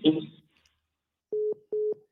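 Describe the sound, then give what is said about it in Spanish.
A phone call cut off into a busy tone: a brief burst of voice, then three steady mid-pitched beeps in an even rhythm, the last one cut short. “Se le cortó a don Guillermo, se le cortó la llamada.”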